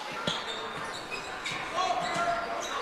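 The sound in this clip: A basketball is dribbled during a game on a court: a few dull, low bounces thud at irregular intervals, fairly faint beneath voices.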